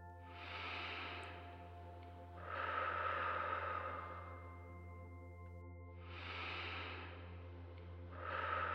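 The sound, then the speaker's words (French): Slow, deep breathing during a guided meditation: long airy breaths in an even, unhurried rhythm, the last one cut off, over a low steady drone. “Respirons ensemble profondément.”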